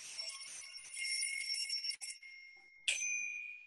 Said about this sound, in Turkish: Ekmek makinesi ekmek haberini veriyor olduğuna dair tam bu saatte alarm çalıyor.